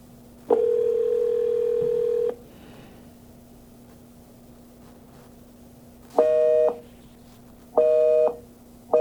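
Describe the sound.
A telephone busy signal: one long, steady electronic tone, then a pause, then short tones that repeat at a regular rhythm.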